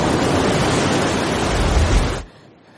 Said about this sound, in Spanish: Varios metros bajo sus pies, las olas rompen contra las escarpadas rocas.